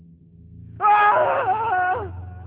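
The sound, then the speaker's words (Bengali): A loud scream from a rooftop where a worker was breaking down a water tank bursts abruptly out of low background noise, holding for just over a second with a wavering pitch before cutting off. “এমন সময় শোনা গেল এক প্রচন্ড চিৎকার, আর চিৎকারটা ভেসে আসছে ছাদ থেকে।”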